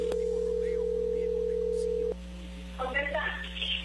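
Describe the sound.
Ringback tone of a telephone call being placed: one long, steady tone over a low line hum that cuts off after about two seconds, followed by a voice answering on the line.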